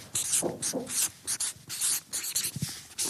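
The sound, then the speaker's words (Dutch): A word is written down by hand in a run of quick, scratchy strokes broken by brief pauses, with no talking over it. “We gaan een gesprek visualiseren. Daar beginnen we mee. Ik schrijf het even op.”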